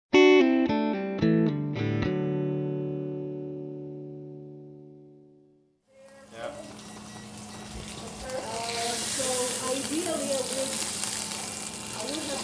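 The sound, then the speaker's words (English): Food sizzles and fries as students cook in a geography department food lab at Indiana University, a steady hiss with people talking over it. A few ringing musical notes come first and fade out. “That's the sound of students cooking in a food lab at Indiana University in the geography department.”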